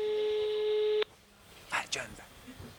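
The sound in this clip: A phone call rings out as a steady electronic tone that stops abruptly after about a second. People then talk.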